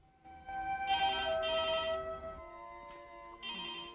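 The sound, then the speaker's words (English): A telephone rings after a call placed from a kitchen phone. Fairly quiet electronic trilling comes in a paired ring, then a pause, then another ring begins over a low hum. “In Bertarelli's, Helen makes a call on the kitchen phone and waits.”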